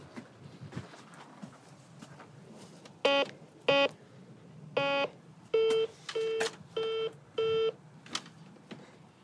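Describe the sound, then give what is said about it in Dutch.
Electronic tones from a modern intercom doorbell panel ringing with nobody answering: a series of short, evenly spaced beeps, the first few higher and the later ones a lower steady ring, over a faint murmuring background. “Er neemt niemand op. Het is zo'n modern bellen tableau en dat je nooit weet of je het nou goed gedaan hebt.”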